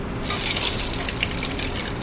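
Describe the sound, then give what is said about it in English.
Browned black walnuts and oil pour into a mixing bowl in a steady, continuous splashing hiss lasting about two seconds, fairly loud and without speech. “just pouring that into a mixing bowl”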